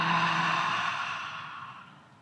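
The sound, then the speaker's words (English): A deep, slow breath, mostly a long airy exhale like a sigh during a guided relaxation breathing exercise. It starts fairly full and fades steadily toward quiet, with no voices. “Deep breath in and out.”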